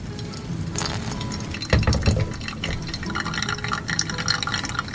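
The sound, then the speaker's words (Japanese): Hot water poured for hand-drip coffee brewing, a soft steady trickle with gentle dripping and a brief fuller splash partway through, quiet and continuous. “ハンドドリップしてる時のこの音と香りっていうのは本当にいいですね。”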